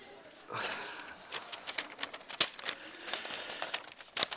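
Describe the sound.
Paper rustles and crinkles as sheets of paper are handed out along a church aisle, with a few sharp crackles standing out over a steady low background.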